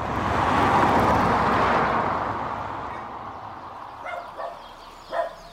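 A forester's dog barks at the edge of a forest. A broad rush of noise fades away, then about three short, sharp barks follow.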